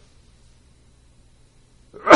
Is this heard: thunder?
no